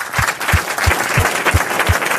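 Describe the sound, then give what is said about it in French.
Loud ovation from an audience welcoming a young female singer onto the stage: dense, steady clapping that fills the whole stretch, with a regular low thumping pulse beneath it. “Je voudrais qu'on fasse une ovation à la jeune femme qui nous rejoint maintenant”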